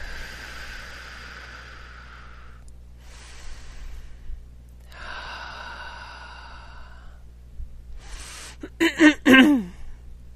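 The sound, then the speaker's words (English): A slow, deep human breath, drawn in and let out as a soft, airy rush of air in long unhurried phases, ending in a short, sharper puff. “Nice deep breath.”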